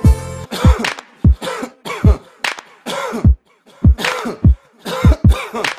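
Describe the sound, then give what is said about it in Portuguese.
A person coughing many times in a row. The harsh, throaty coughs come in short irregular bursts, loud and separated by brief silences, with no speech. “Tá tossindo por quê?”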